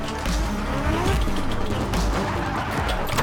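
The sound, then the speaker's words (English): Drift cars burning rubber on a custom track, with a continuous loud roar of engines and tire noise that holds steady from start to end, no pauses and no voices. “12 of the world's top drifters burning rubber on a custom track where power and precision are paramount.”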